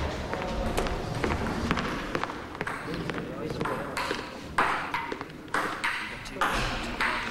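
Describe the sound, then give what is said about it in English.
A table tennis ball being played by patients in a recreation area, many quick, sharp clicks in an irregular rally under a voice speaking throughout, with footsteps and other background noise. “Edgar leaves Peter's office and stomps off down the corridor to a recreation area where two patients are playing table tennis.”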